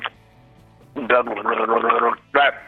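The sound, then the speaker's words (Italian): Water is drunk to keep the vocal cords going, with a burst of gulping and gurgling lasting about a second, then one brief, loud swallow after a short pause. “Bevo acqua per tenere le corde vocali.”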